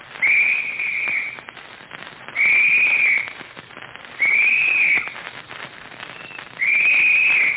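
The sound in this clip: A signal whistle sounds four shrill, steady blasts of about a second each, spaced evenly apart over faint background hiss.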